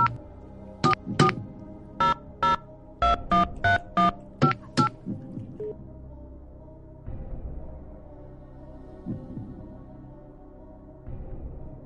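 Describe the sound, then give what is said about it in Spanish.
Touch-tone keypad beeps as a telephone number is dialed: a quick run of many short, bright tones in uneven rhythm, followed by quieter, low line noise. “Voy a hacer la llamada a la siguiente pareja.”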